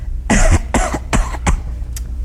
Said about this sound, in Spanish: tiene que toser más duro, chico. Por un catarro así no se puede pedir ni 350, chico. ¿Tengo que toser más duro? Claro, chico. Hombre, para que parezca una bronquita